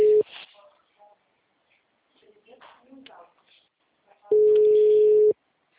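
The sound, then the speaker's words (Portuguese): Ringback tone of a phone call going unanswered: steady single-pitch tone bursts, one clipped at the start and another lasting about a second later on, with faint talk in the gap between. “Faz com ele uma ligação, cara. The number is not answering.”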